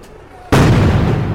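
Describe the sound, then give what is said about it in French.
A GM2L grenade explodes, thrown by riot police at a street protest: one sudden loud blast after a quiet lead-in, followed by a sustained rumbling roar that holds to the end. “ça va être ces nouvelles euh, grenades je pense. Les GM2L”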